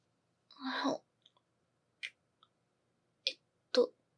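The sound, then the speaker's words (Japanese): A kiss: a soft, breathy smacking burst followed by a few short, quiet lip clicks spaced apart. “これがキスです。”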